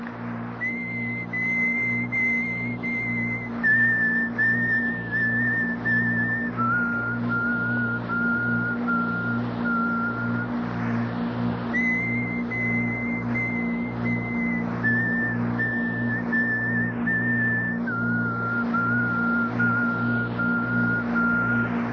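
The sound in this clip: Whistling accompanies a ritual in which leaves are beaten on a baby's body: sustained whistled notes step downward in pitch in a repeating three-note pattern over a steady, low rhythmic pulsing.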